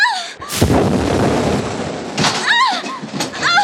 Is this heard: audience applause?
no